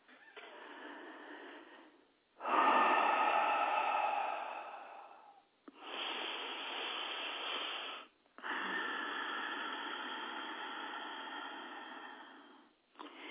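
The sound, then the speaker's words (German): Deep, slow breaths are drawn in and pushed out during a guided breathing exercise. The long, airy breaths each last several seconds, are separated by brief pauses, and are heard alone, without talk. “Dann bitte einatmen, ausatmen, weit werden.”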